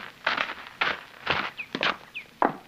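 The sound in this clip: Footsteps walking into a cabin: several heavy, uneven thuds spaced roughly half a second apart, with no voices.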